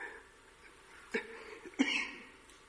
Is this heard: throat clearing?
yes